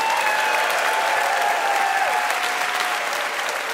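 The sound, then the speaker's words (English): Applause from a quiz show audience for the VIP contestants, a dense, steady wash of many hands clapping that holds evenly for about four seconds and eases slightly toward the end, with no voices over it. “Let's hear it for our VIPs from Invisibilia, Elise Spiegel and Lulu Miller.”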